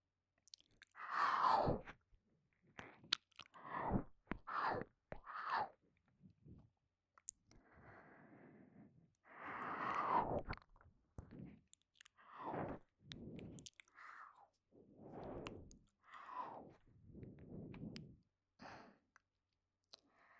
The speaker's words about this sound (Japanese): 私がお耳食べてあげる。